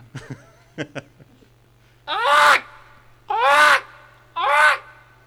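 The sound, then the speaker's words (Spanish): A voice imitates a fox with three loud, harsh, drawn-out yelping calls, each about half a second long, after a few faint short sounds. “A ver, hace el zorro. No es un pájaro, pero bueno.”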